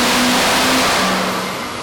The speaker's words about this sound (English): Ramping up here for run number 2. RPM's coming up. She's making some noise, starting to sing.